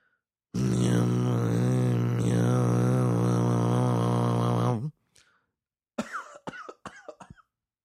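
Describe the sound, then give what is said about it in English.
An amateur attempt at Tuvan throat singing: one loud, low, buzzy drone rich in overtones, held for about four seconds, followed after a pause by a few rough coughs. “Hurt myself trying to do my little bastardized version of Tuvan throat singing.”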